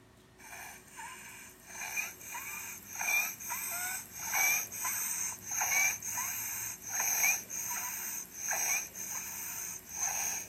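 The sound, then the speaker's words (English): Stridor, the noisy breathing of an upper airway obstruction: about ten rhythmic, harsh breaths, each carrying a high-pitched whistling squeak, fairly quiet and evenly spaced, with no talk. “Here is what stridor sounds like.”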